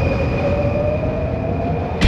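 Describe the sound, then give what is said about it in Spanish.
London Underground metro train running toward Oxford Circus, a loud continuous rumble with a steady high motor whine, ending in a sudden bright burst of noise. “tomamos la línea de metro que nos dejará en pleno Oxford Circus.”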